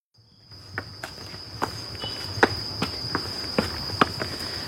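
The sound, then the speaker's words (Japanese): Footsteps climbing 85 stone steps at a steady pace, many crisp treads in an even rhythm over a constant high insect drone and a low background rumble. “これを今から登っていこうかというふうに思ってるんですけど。 はあ、大変ですね。 はあ、これホームページ上では85段というふうに言われております。ほな、まあ、いっぺん、この85段、 はい、 登っていきましょうか。”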